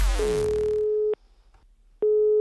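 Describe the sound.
Busy tone on a telephone line ahead of a prank call: a steady mid-pitched beep that cuts off, leaves a short silent gap, then starts again at the same level, without any voices.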